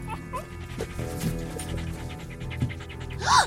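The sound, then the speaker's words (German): A dog pants while shut in a car in the heat, with quick, breathy pants in a steady rhythm, fairly loud and close. No one speaks. “Ich habe gelesen, dass Hunde nicht schwitzen können. Darum hecheln sie.”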